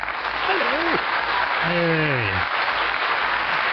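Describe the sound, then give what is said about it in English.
Studio audience applause sound effect played from a soundboard: a steady, dense wash of clapping that runs through the whole stretch, with voices briefly rising over it twice. “And this is our captive studio audience, of course. At the push of a button, they are in the soundboard.”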